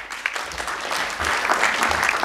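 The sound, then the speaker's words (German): Applause from a church event audience welcoming a worship leader onto the stage: steady dense clapping throughout, growing slightly fuller toward the end, with no voices over it. “Geben wir doch einen Applaus.”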